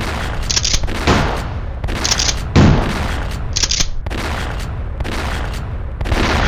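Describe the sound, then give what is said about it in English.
Shotgun blasts from several guns firing, many loud booming shots in rapid overlapping succession with no pause between them. “They spoke briefly, then raised the shotguns and started blasting. 16 shots were fired.”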